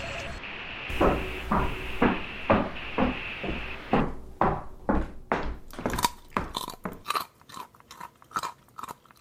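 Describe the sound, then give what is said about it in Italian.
A neighbour chewing food with steady, rhythmic crunching: many distinct bites and chews follow one another, loud and close, each a short crisp burst, growing sharper and more clicking toward the end, with no talk. “il fastidio che alcune persone provano nel sentire alcuni rumori, ad esempio quello del vicino che sta masticando, l'abbiamo sentito per ultimo”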